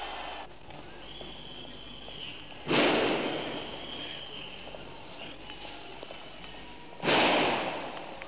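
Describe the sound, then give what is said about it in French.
Riot police fire tear gas grenades in a street amid barricades: two sharp, loud bangs a few seconds apart, each trailing off in a brief hiss over a steady background noise. “Dans la rue Jean Massé, les CRS sont en train de lancer les grenades lacrymogènes.”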